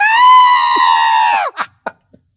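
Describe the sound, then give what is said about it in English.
A human voice imitates a sick rabbit's last scream of pain on a vet's table. A loud, high, sustained shriek wavers, then drops away, followed by a few short, breathy bursts. “Yeah, that scream was the last scream of pain from the rabbit.”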